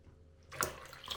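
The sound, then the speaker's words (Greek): Water being poured into flour for a dough, a faint hollow splashing rush that starts partway through after near silence and carries on softly to the end. “Μετά βάζεις το αλευράκι. Αφού συμπληρώσεις και το νερό το υπόλοιπο.”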